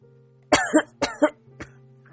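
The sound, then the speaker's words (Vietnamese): A man coughs hard from the chest in two quick pairs of harsh bursts, then gives one fainter cough, over a steady low hum. “Cố Hòa ho thêm vài lần, cuối cùng khom lưng trước thùng rác nôn khan.”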